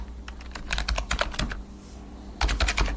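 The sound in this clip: Keystrokes clatter on a computer keyboard as an 88-year-old man types, faint irregular taps in a quick run, a brief pause, then another burst of rapid keys.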